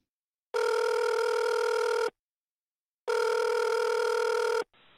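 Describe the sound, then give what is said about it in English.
A telephone rings for an incoming relay call: two long, even electronic rings of about a second and a half each, separated by a silent pause, with a faint sound beginning right at the end. “A person who may be deaf or hard of hearing is calling through the California Relay”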